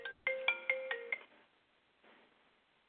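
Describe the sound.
A telephone ringtone signals an incoming caller with a quick run of bright electronic beeps, about five in a row. It then stops, leaving only faint background noise. The ringing is fairly quiet.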